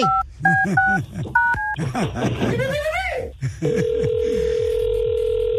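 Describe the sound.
A telephone number is dialed on a keypad as a quick run of paired beeping tones, followed by busier mixed sound and then a steady, continuous line tone that holds to the end.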